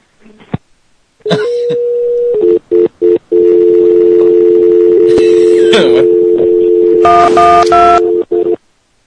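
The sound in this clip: A telephone dial tone and keypad dialing. A click leads into a steady, humming tone broken by a few short gaps, then bursts of multi-pitched touch-tone beeps sound over it, loud and alone.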